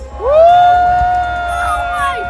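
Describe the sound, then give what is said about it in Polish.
Crowd cheering during a total solar eclipse in the United States: a loud, rising whoop settles into a long, steady held cry, with fainter shouts and crowd noise underneath. “Brawa i okrzyki zachwytu rozlegały się w kolejnych miejscach na szlaku całkowitego zaćmienia słońca.”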